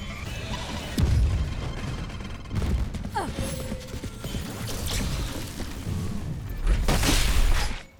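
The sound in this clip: Concussion grenade blasts in a video game: several heavy booming bursts break through a rattling, crashing din, and the loudest surge comes near the end before it cuts off.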